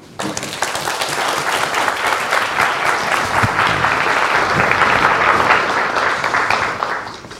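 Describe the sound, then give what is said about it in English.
An audience applauds to welcome a professor to the stage: dense, even clapping that starts abruptly, holds steady for several seconds, then tapers off at the end. “And now please join me in welcoming Professor Dabashi.”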